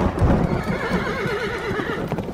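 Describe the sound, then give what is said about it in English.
An old gray mare, terrified by a lightning strike nearby, lets out a loud, quavering whinny whose pitch trembles up and down over a dense low rumble. “The old horse was so scared she broke her reins and ran for home.”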